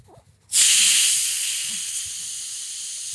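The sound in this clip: A carbonated drink bottle is opened right by the microphone. A sudden loud hiss of escaping gas gives way to a steady fizzing of bubbles that slowly eases off, with faint soft handling noises just before the bottle opens.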